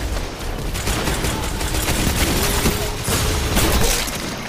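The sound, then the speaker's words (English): Gunfire in a Destiny 2 Control match, loud rapid shots cracking in dense bursts over a continuous noisy game background. There are many sharp reports, with a heavier cluster toward the end. “Oh, I got snipe. I got snipe right as I shot that guy.”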